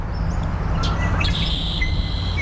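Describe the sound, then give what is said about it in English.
Bird song in a marsh, with a red-winged blackbird trill and the twitchy song of a common yellowthroat: a few bright chirps and short trilled phrases over a steady background hiss. “the marsh soundscape is highlighted by the trill of the red-winged blackbird and that twitchy, twitchy song”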